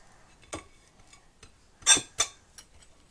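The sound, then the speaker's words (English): A knife spreading butter on toast: a few short, dry scraping strokes at irregular intervals, faint, with quiet gaps between them. “Can't even spread butter. Why would I make toast if I can't spread butter?”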